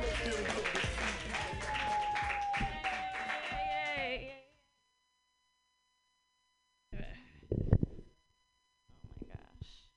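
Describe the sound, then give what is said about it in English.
Applause from an audience for a comedian at a stand-up show, steady clapping under a cheering host's voice for about four seconds, then stopping abruptly before a few faint, scattered noises. “Put your hands together for Natasha Vinnick. Yay!”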